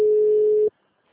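A phone call rings out unanswered: one steady, fairly loud ring tone holds for under a second, stops abruptly and leaves silence.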